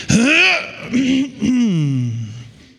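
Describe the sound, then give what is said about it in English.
A voice imitates a throat clear with a few drawn-out, voiced, gravelly grunts, loud and close, ending in a falling, fading tone. “You ever get the throat clear of the Holy Spirit? Do you ever get that?”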